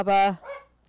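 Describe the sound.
A small pet dog barks at activity in the hallway, giving one sharp, bright bark followed by a softer, shorter yelp. A few words are spoken over it.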